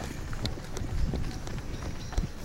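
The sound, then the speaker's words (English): Rustling, thudding footsteps of a man cutting through bushes as he runs away, with quick irregular steps and a few heavier thumps under a constant breathy wind noise. “He's going through bushes now. He's cut through bushes and is running away from us, basically.”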